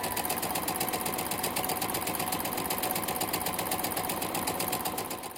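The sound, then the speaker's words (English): Sewing machine stitching an outfit, a rapid, even mechanical whir and clatter that runs steadily throughout and tapers off at the very end, with no talk. “Yes, I have got to sew my outfit for New York Frocktails”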